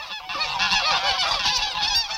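Domestic geese, a gander and a goose, honking in a dense chorus of loud, nasal, overlapping calls that run continuously without a break, with no voices.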